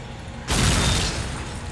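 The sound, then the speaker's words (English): A grenade explodes in a video game. One sudden, loud, full-bodied boom hits about half a second in, then settles into a sustained rumbling roar that fades slowly until the end. “I know I can just throw another grenade.”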